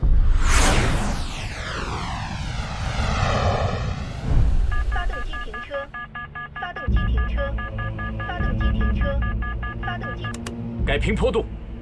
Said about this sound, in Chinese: 三五，这次试飞要实验涡喷的高空性能，你是前舱驾驶，更要冷静。三两，三五，这里是指挥部，你们可以开始了。 三两明白。三五明白。现在高度15,000，马赫数1.80， 飞行正常。